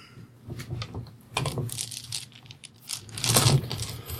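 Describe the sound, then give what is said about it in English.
Dice rattle and clatter during a tabletop roleplaying game, a run of brisk clicks and tumbling knocks that swells into a louder burst near the end. “watch dice. This is for the Jedi Knight. Whoa. Oh, you got a one on the wild die.”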